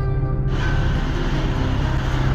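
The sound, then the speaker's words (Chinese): Loud, steady engine rumble of a coach bus in Guangzhou, one of ten buses leaving for Hubei. The deep drone runs continuously without breaks or clear changes. “这今天10辆大巴车全都回湖北的，这是吧？车来了，马上就要走了，马上。”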